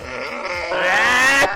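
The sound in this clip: A man's voice imitating a donkey's bray: one drawn-out, strained, reedy cry about a second and a half long, swelling louder and brighter partway through, with no other sounds.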